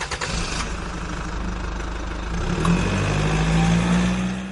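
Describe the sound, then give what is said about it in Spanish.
Car engine starting: a rough, noisy rumble that catches partway through and settles into a louder, steady, low idling hum that holds to the end. “esta que te habla, ha arrancado el coche”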